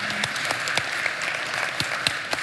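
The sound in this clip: An audience claps together to welcome a speaker at a morning gathering, producing a steady, dense wash of applause with scattered sharper claps and no talking over it.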